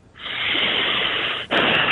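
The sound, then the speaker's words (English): Loud breath pushed close into a microphone: a rough rush of air that holds for more than a second, breaks off briefly, then surges again. “Very breathy there. That was a big breath by you.”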